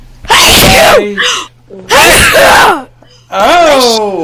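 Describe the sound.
Sneezing, three loud, sharp bursts with short pauses and breathy, voiced sounds between them.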